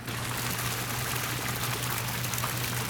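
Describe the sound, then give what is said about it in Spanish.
Running water makes a steady, unbroken rushing hiss at an even level, with a faint low hum beneath it. “¿Y este es el sonido del agua?”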